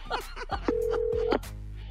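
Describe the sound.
Telephone keypad tones as a number is dialed to place a call, with a few short beeps and one long held tone at a moderate level.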